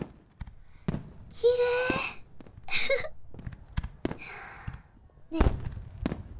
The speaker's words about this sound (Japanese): 花火っていろんな色と形があって、カラフルなビー玉の模様みたいだね。